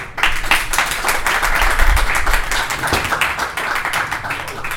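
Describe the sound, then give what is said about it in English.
An audience at a Fringe comedy show applauds to welcome a comedian on stage, producing brisk, dense clapping that swells early and stays loud and steady to the end. “Please put your hands together and please make him feel very welcome”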